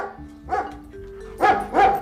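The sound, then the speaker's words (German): A Belgian shepherd dog barks three times: a single bark, then a short gap and two quick barks close together. A faint steady tonal hum runs underneath. “Der belgische Schäferhund stürmte auf Piepe zu”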